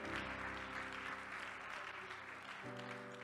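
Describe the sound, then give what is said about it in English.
Audience applause welcomes speakers at a church service: steady, dense clapping throughout, with sustained musical chords underneath that shift near the end. “Let's put our hands together and welcome the kings as they come.”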